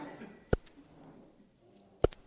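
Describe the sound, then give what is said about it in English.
Handbells and chimes from a handbell ensemble strike in two bright clusters. Each cluster leaves a clear, high, sustained ring that fades slowly between the strikes. “So what a range that are here among the bells and chimes of the Three Rivers Ringers.”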